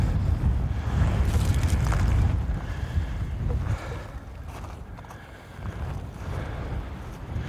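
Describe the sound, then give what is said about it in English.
Wind buffeting a microphone outdoors on an icy, exposed hilltop trail, a steady low roaring rumble that surges in gusts, strongest early on, easing midway and then picking up again, with no voices. “Actually, I'm going to come out of the wind. You'll never hear a word I'm saying.”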